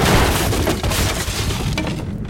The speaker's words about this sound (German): Kanonenkugeln schmettern durch die Flanken deines Schiffes.